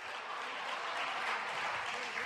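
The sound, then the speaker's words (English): Audience applause fills the whole stretch, a dense, even wash of many hands clapping at a steady, fairly loud level with no pauses. “Give them a hand.”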